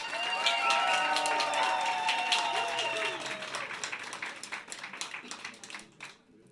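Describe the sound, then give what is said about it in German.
Audience applause: dense, loud clapping that holds steady, then thins into scattered claps before fading out. “Wie würde sich denn ein Applaus bei euch anhören, wenn ihr sagt, der Junge hat ja Verführung.”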